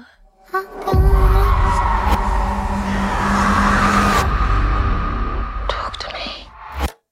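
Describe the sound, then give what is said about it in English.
A movie trailer starts playing: a loud, dense mix of rumbling, tire-squeal-like tones and whispery voices runs for about six seconds, then cuts off abruptly. “Hunger Games trailer started playing and I turned it off.”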